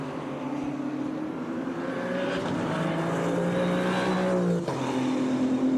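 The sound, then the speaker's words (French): GT3 race car engines roar at top speed during a sports car race. A steady, loud drone climbs slowly in pitch, then drops sharply once near the end. “Vous avez vu la vitesse de pointe de ces GT3 hein, par rapport au LMP3, ouais.”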